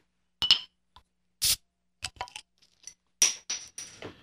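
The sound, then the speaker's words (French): A bottle of pale ale turned semi-IPA being uncapped. A few quiet glassy clinks and taps lead to a short sharp hiss of released gas, followed by more scattered clinking and light scraping, with no talking. “Et c'est une pale ale transformée en semi-IPA. Et je vais la déboucher et je vais vous en parler.”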